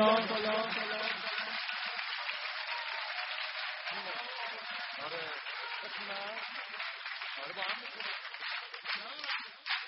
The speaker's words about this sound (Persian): دستا رو همه بیارید بالا، یه کف مرتب به عشق عزیز زهرا امام حسن بزن بزن بزن بزن بزن بزن.